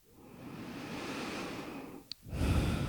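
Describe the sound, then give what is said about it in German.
Deep breathing during a guided yoga meditation: one long, slow, airy inhale, a brief click, then a louder, breathy exhale that begins near the end. “Wenn du soweit bist, dann nimm ein paar tiefere Atemzüge ein und aus.”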